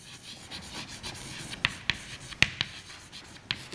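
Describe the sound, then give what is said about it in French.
Writing on a board: soft continuous scratching strokes punctuated by a few sharper taps as the writing tool strikes the surface. “alors je vais écrire les choses”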